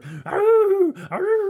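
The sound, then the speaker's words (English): A person's voice imitates a big wolf growling. It makes a low lead-in and then two drawn-out, moaning vocal bursts whose pitch bends up and down, loud and alone with no other sounds. “Yeah, and then there's big wolves that go,”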